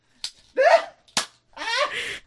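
Two sharp, snappy pops of a Nerf toy gun being fired, each a brief click, with short voiced sounds between them and a longer hissy burst at the end.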